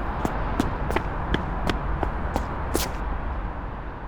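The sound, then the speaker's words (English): Quick running footsteps pound along a street as someone hurries to catch a bus. Sharp, evenly spaced footfalls fall in a steady rhythm over constant background noise, then fade toward the end. “Oh, but I'm going to have to hurry to make it on time. Nothing I can do now but run.”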